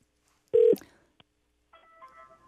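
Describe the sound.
A telephone connects to a caller with one short, loud, steady tone, then a brief click and softer, fainter tones that sound like the line ringing through.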